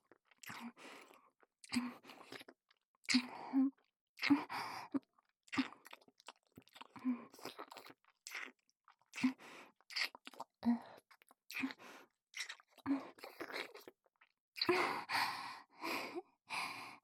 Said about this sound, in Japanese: いつも、二人きりになったら、こうやって突然。